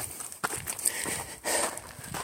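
Footsteps of a hiker climbing a steep uphill path toward a mountain ridge: a few faint, irregular scuffing and crunching steps over soft background noise.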